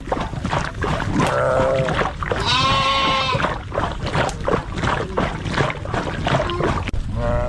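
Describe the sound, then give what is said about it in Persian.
Livestock from the herds of Kuchi nomads bleat a few times, with wavering, nasal cries rising over a constant rough, noisy background. “بیشتر در این گزارش که با صدای مواشی آغاز می‌شود.”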